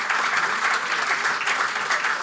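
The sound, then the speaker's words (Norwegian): Applause from a crowd: dense, even clapping that holds at a steady level throughout, with no voices standing out. “Altså, det en applaus til...”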